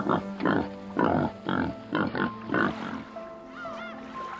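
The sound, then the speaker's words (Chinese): Wild boar piglets grunting on an island in Singapore: a series of short, rough, low grunts in a fairly steady rhythm, fading into quieter sounds toward the end. “有时，岛上居住的小野猪们会突然冒出来和你打个招呼。”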